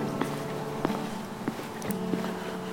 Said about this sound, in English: I'm making the walk from my in-law's house back to my mom's house.